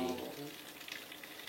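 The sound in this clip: Water being poured in to top up a mixture: a steady, hissing splash and trickle that continues throughout, with a voice heard briefly at the start.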